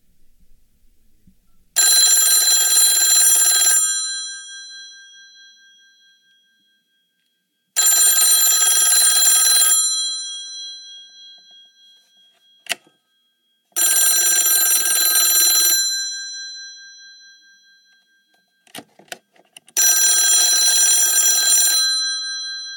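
Telephone bell ringing from a Nortel Meridian 9316 desk phone: four bright, metallic ring bursts of about two seconds each, evenly spaced several seconds apart, with a few faint clicks in the quiet gaps.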